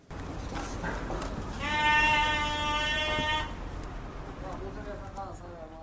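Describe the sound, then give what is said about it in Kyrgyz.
Sheep bleat at a small livestock market in Bishkek where small animals are sold: one long, wavering bleat stands out above a murmur of voices and background noise, followed by fainter, shorter bleats. “Бишкектеги Баят деп аталган майда жандык саткан чакан базар.”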